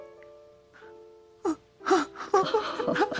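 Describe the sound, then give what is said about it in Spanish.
A little girl cries in wailing, gasping sobs, starting with faint whimpers and breaking into a sharp sob before louder, ragged bursts of weeping continue to the end. “No llores, cariño. Vamos, pequeña, no debes llorar.”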